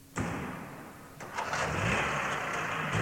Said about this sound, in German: Trabant gefahren wird im Gebäude gegenüber in der Audi-Halle aus den 30er Jahren, in der auch die Trabis montiert wurden.